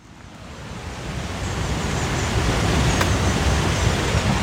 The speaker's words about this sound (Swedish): man hör kanske Vindelforsen här i bakgrunden. Den låter väldigt mycket i alla fall när jag står här, och den är väldigt livlig.